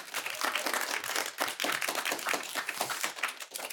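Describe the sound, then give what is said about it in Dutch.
A studio audience applauds actors seated at a talk-show table. The crisp, busy hand clapping is loud and even, with many overlapping claps forming a dense patter from start to finish. “En hier bij mij aan tafel, geef ze een groot applaus, zitten de acteurs.”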